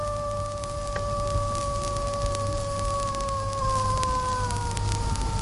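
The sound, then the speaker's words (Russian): A long, drawn-out howl from adult canids calling their pups in a nature reserve in southern Tajikistan: sustained, layered tones that sink slowly in pitch over a constant background hiss. “Сначала мы услышим длинный протяжный вой. Это родители призывают шоколят успокоиться и послушать их.”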